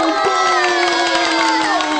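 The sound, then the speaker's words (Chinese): School pupils cheer together, a loud, continuous crowd of children's voices shouting in high tones with no pause. “大家鼓掌鼓励鼓励。”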